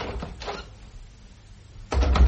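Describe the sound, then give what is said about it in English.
A window being opened from inside a house: a couple of short rustling scrapes, then a louder low rumbling clunk near the end. “You open the window.”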